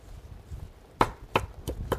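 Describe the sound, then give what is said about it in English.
Knife rough chopping fresh basil from a grown plant on a board, four sharp crisp strikes in an uneven rhythm after a quiet start. “So this basil plant's been growing for a while, and it really is great. I'm just going to chop a little bit, rough chop here.”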